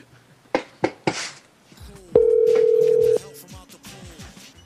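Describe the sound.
A telephone ringback tone on an outgoing call that goes unanswered and on to voicemail: one steady, sustained tone lasting about a second, preceded by a few sharp clicks, with faint background sounds around it.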